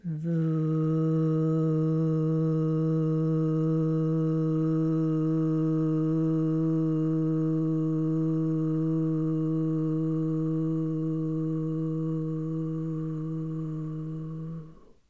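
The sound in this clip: A deep, buzzing vocal hum produced at the back of the throat during a breathing exercise, imitating a lighthouse foghorn. It is held as one steady, unbroken low tone for about fifteen seconds and tapers off at the end.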